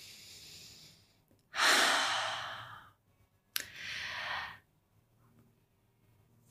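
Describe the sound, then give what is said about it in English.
One deep breath is drawn in and let out during a guided relaxation exercise: a long, loud breathy inhale, a short pause, then a softer sighing exhale, each clear and alone. “Now, take a deep breath, let it all go.”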